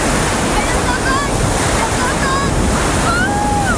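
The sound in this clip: Sea waves roar steadily as someone wades into cold seawater, with wind buffeting the microphone in a continuous, loud wash of noise.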